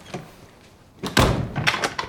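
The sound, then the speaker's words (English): A door is shut and bolted inside a forest cabin at night, giving a faint knock and then a louder thud followed by another sharp clack, with quiet stretches between. “He closes and bolts the door”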